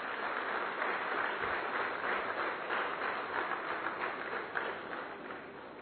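Steady applause from an audience welcoming the chief guest onto the stage at a formal function; dense, continuous clapping holds at an even level for the whole stretch with no clear pauses.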